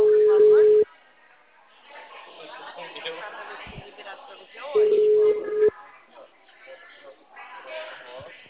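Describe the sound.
A telephone ringback tone sounds as a call connects: two steady, mid-pitched tone bursts, each under a second long, with voices and background chatter between and after them.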